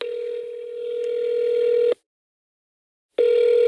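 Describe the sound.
A telephone call plays on speakerphone with a steady ringback tone that holds for about two seconds, stops briefly, then sounds again.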